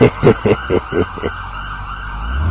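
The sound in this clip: An ambulance siren sounds as a series of rapid, rhythmic pulsing bursts that give way to a steadier, quieter tone over a low rumble.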